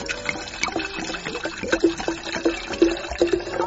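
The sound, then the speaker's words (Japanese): Liquid splashes and trickles as a drink is poured from high up into empty cups for a toast, spilling around them. A steady, wet patter of many small splashes runs throughout. “これだいぶ高い位置から今日入れたな、飛び散ってるもんね周りね”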